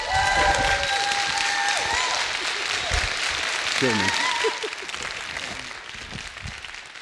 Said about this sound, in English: Would you give him a great big welcome as he comes?